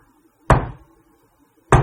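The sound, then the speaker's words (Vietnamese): Two slow, even knocks on a door sound about a second apart in near silence, each a dull thud with a short decay. “tự nhiên bạn nghe tiếng gõ cửa. Mà không phải là cái tiếng gõ cửa dồn dập, mà cái kiểu cách đó các bạn vậy nè.”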